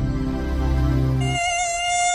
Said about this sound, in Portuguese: Aedes aegypti. Combata esse mosquito.